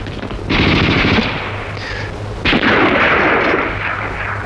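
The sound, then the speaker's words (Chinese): Heavy gunfire erupts after a shouted order to halt near a mine: two loud sustained bursts of dense, rattling noise, the first beginning about half a second in and the second near the middle, with no voices over it. “不站住开枪了！ 起来开！”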